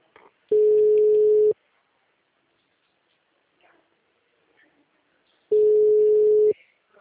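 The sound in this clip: Ringback tone of an unanswered phone call: two steady, loud, mid-pitched tones about a second each, separated by a roughly four-second silent gap, with only faint small noises in between.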